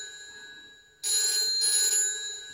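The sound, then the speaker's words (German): A telephone rings in a drama scene, a bright, loud ringing that starts abruptly about a second in and carries on to the end over a steady high background tone. “Geh ans Telefon. Die Kinder waren noch auf. Ja, geh dran.”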